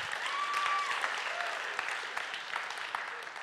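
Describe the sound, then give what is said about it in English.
A church audience claps in celebration of dozens of baptisms, a steady patter of many hands. A cheering voice calls out over it early on, and the applause eases slightly toward the end. “You can clap for that.”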